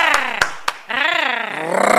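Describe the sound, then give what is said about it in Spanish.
Three sharp handclaps in quick succession mark applause for the Tigres team, and a drawn-out, wavering shouted voice follows. “Muy bien, y se merecen un aplauso. ¡Aplauso!”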